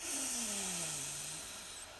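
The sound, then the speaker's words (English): A deep breath is drawn in and exhaled during a guided breathing exercise: one long, airy breath that holds steady at first and then gradually fades, with no talk. “So breathe in. And exhale. Get that stale air out. Breathe in”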